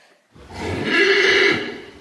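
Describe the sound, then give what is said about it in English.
A horse gives one loud, drawn-out whinny that swells and then tapers into a shaky, high, nasal fade. It is heard alone, with no talking. “That's right, we're talking about horses.”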